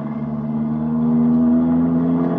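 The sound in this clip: A taxi's car engine drones as the car drives off fast, giving a steady, moderately loud hum whose pitch rises slightly partway through, with no voices.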